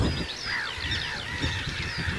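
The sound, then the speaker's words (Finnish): A flock of barnacle geese flies over a forest, giving many overlapping honking calls that stay fairly faint against steady background noise. “Tuolla muuten menee joku parvi tuolla oikealle päin. Se on hanhia tulossa. Metsän päällä.”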